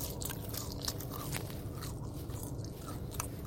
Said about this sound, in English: That way you're right below my mouth. You're going to get all of this fresh chewing sounds.